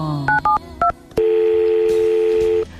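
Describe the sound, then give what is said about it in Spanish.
A telephone number is dialed with three short touch-tone beeps, followed by a click and one long, steady tone held for over a second. The tones are loud and clean, with no voices. “Pues voy a ver si llamo a Sebas”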